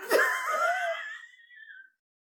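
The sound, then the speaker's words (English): A man wheezing like an old man: one drawn-out, raspy, whistling breath that starts with a sharp catch, holds a thin wavering tone, fades quietly and ends in silence. “Why do I wheeze like an old man?”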